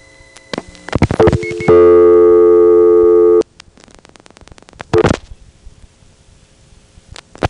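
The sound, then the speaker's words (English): A telephone dialing 011: handset clicks, then a steady humming tone, then a quick series of sharp clicks as the digits go through. “So I'm going to quickly dial 011.”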